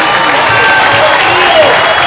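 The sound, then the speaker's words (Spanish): Loud crowd applause for migrants at a public speech, a thick, continuous roar of clapping with a few cheers mixed in, steady for about two seconds. “Un aplauso para los migrantes.”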